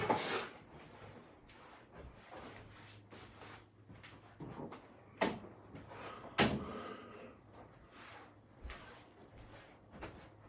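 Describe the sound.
A door being closed indoors: faint soft knocks and thuds, the two strongest close together in the middle, over a low steady hum.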